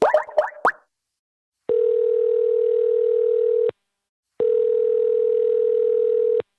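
A phone call is placed: a quick run of short keypad beeps is followed by two long, steady ringing tones on a single pitch, each lasting about two seconds and separated by a silent gap.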